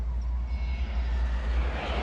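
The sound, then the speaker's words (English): A jumbo jet flies through the clouds, a faint, even roar with a broad hiss that holds steady throughout. “A jumbo jet flies through the clouds.”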